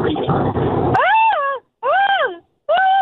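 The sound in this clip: A person imitates a peacock call with three loud, wailing cries, each rising and then falling in pitch and separated by short pauses, after a brief noisy voiced stretch.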